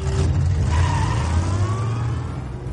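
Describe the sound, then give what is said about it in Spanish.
A car engine revs and pulls away in Fast & Furious 8: a loud, steady mid-pitched roar that accelerates with a faint whine, easing slightly at the end. “Sube al coche, pisa el dispositivo junto al embrague y conduce.”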